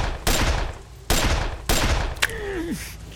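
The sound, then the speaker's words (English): Three loud, booming gunshots trade back and forth on a rocky slope as fire is answered from a rocky pocket below, each with a long ringing decay, then a sharper crack followed by a short descending whine. “Almost immediately, the shot was answered from a rocky pocket about 30 yards below him.”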